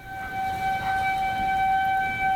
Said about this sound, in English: One of these outdoor sirens, as the one behind me, goes off.